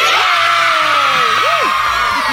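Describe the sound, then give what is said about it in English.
Children screaming at a school, a loud, dense crowd of high-pitched shrieks and whoops that stays intense and continuous throughout. “Maximum scream levels.”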